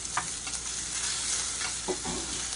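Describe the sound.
Sizzling of small spicy sausage meatballs pressed flat in a hot frying pan, a steady bright hiss with a few brief scraping clicks, heard alone without voices.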